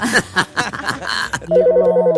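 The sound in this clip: An incoming telephone call rings with a rapid electronic warble of two alternating pitches, loud and steady. It follows a stretch of people talking.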